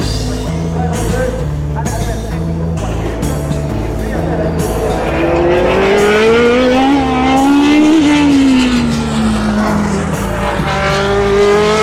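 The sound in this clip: A Ferrari C124 racing car roars around a circuit near Milan, its loud continuous engine tone rising and falling in pitch as it accelerates and shifts, with the whine climbing to a peak before dropping back.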